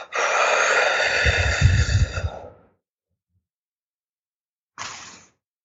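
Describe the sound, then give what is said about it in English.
A forceful exhale during a yogic breathing exercise: a long, loud, rushing breath out lasting a couple of seconds, followed by silence and then a short, quieter breath. “So I'll exhale. I can't talk after I do this, so I'll just show you.”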